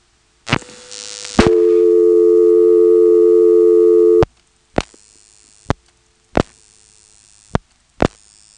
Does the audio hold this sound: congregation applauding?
no